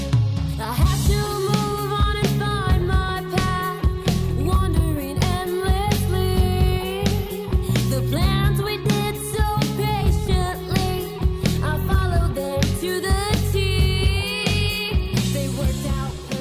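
A song by a newly formed five-piece rock band with a drummer. It plays as a loud, dense, continuous full-band sound from start to finish.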